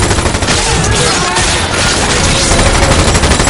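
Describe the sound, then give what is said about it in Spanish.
Heavy gunfire from an upper floor during a fight among flames in an action-adventure film. Loud, dense automatic bursts merge into a continuous barrage with no pauses. “Artez dispara desde la planta superior.”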